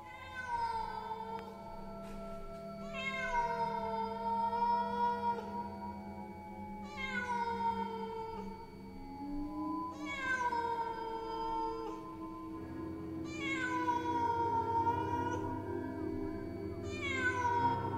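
A black cat meows repeatedly in a graveyard at night. It gives a series of drawn-out, tonal cries with clear gaps between them, and each one falls in pitch. The cries are moderately loud and heard alone, with no speech.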